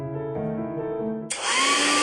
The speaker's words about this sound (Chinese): 每次吹完头发又毛又干，真闹心。 老婆，这是你吹风机没选对，快试试我给你新买的戴森吹风机